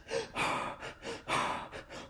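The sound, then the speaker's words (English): A person imitating Wim Hof hyperventilation breathing, with a rapid, rhythmic run of forceful in-and-out breaths, soft and airy, heard alone without talk. “Wim Hof breathing.”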